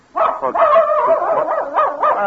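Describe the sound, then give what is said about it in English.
A dog whines and yips in a continuous, high-pitched run of barks and whimpers, loud and steady for the whole stretch with no voices over it. “Well, there you are, Queenie. I wondered what happened to you. Been following me around all night. Miss Benton's dog.”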